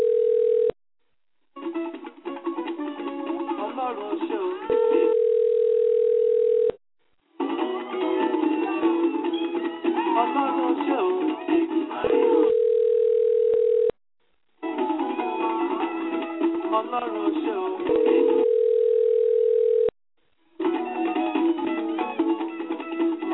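A telephone ringing tone on a line before a call connects: several steady, even buzzing tone bursts alternate with longer stretches of muffled, narrow-band sound.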